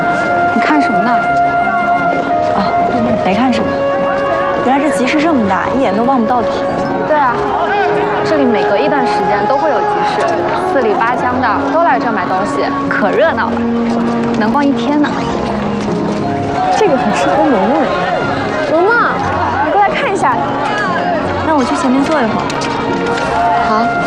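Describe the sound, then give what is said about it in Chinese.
Busy chatter of a large rural market crowd, many overlapping voices forming a loud, steady babble that never lets up. “这集市这么大，一眼都望不到底。对啊，这里每隔一段时间都会有集市，四里八乡的都来这买东西，可热闹了，能逛一天呢。”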